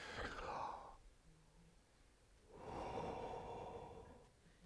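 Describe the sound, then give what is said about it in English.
A group taking a deep breath together. A soft, airy inhale is followed by a pause and then a longer, gentle exhale, all faint. “So let's all just get in a Zen place and take a deep breath together.”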